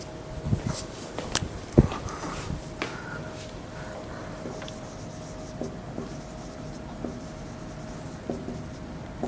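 Marker strokes on a board as a function is written out: many light scratches and taps in an uneven rhythm, quiet and alone, fading into softer strokes toward the end.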